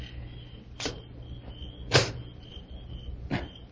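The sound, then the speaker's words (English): A lock being unlocked by lantern light: three sharp, separate clicks over a low, steady hum, with no voices. “There. It's unlocked. Well, what are you waiting for? Go ahead and open it.”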